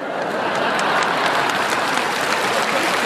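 Audience applause fills a concert hall, a dense, steady wash of many clapping hands that holds at an even loudness for the whole stretch, with no voices standing out.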